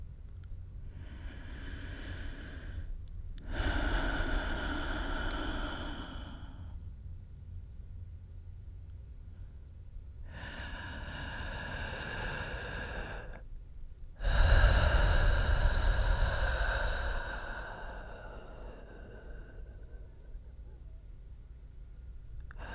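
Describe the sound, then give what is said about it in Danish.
Slow, deep belly breathing for relaxation: a few long, airy inhales and exhales, some louder than others, each drawn out over several seconds with quiet pauses between. “langsom vejrtrækning, hvor du mærker, at du trækker luften helt ned, så maven bliver stor på din indånding og fladere igen på din udånding.”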